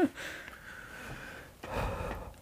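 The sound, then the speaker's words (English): A voice imitates Michael Myers' heavy masked breathing: two slow, raspy, hoarse breaths separated by a brief pause. “Stop with the heavy breathing, you weirdo.”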